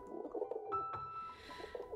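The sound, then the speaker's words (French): Doves cooing softly, with low, rounded coos repeating faintly over the whole clip. “Le premier jour, Stella chante avec les colombes.”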